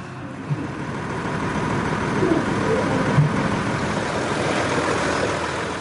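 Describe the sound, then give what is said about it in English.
Steady low engine and road rumble comes from a car on the drive to the airport. It is a continuous, even drone with no distinct events and no talk. “The drive to the airport began what would be a 2-day journey.”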